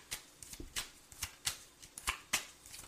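Playing cards being shuffled and dealt, heard as many crisp, papery flicks and snaps in an uneven rhythm. Each one is short and fairly quiet, and no voices are heard.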